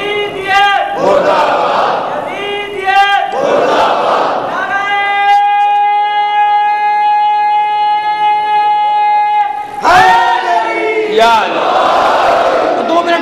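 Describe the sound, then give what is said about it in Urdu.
A crowd at a gathering honouring Husayn recites salawat aloud in unison, with loud rhythmic bursts of collective voices around one long sustained note in the middle. “ایک صلوات بھیج دیجیے آواز ذرا سا”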